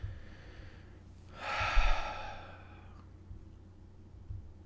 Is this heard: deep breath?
yes